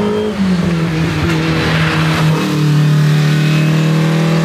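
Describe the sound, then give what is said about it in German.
Car engine revving loudly at a hill-climb motor race, a sustained, continuous engine note that shifts slightly in pitch. “da will mal wieder jemand rumprotzen mit seiner Karre.”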